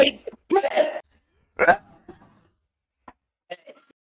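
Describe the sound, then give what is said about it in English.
Throat clearing of phlegm and spitting onto the floor: a few rough, rasping bursts of throat noise, then faint small ticks afterward. No other voices. “Had a little phlegm in my throat. I just had to spit on my floor real quick.”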